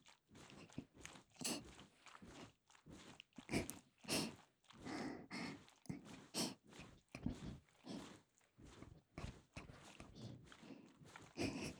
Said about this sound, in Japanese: 爪を立てた方がもっと気持ちいいですかね。ほら、こうやってカリカリカリカリカリ。